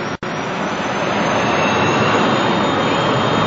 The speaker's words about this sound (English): here at Zurich Airport, and perhaps as you can hear from the noise in the background, the Learjet of the Swiss Air Rescue Guard is now barreling down the runway here